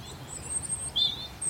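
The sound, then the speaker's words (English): A robin sings from an oak tree beside a car park in the Brecon Beacons National Park, thin high-pitched whistled phrases coming through faintly over a low background rumble. “There's a robin singing from an oak tree just above me,”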